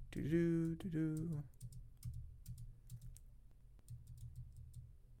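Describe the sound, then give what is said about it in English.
Typing on a computer keyboard: a short stretch of speech, then rapid, light key clicks in irregular bursts that stay quiet throughout. “All right, let me just type in RC.”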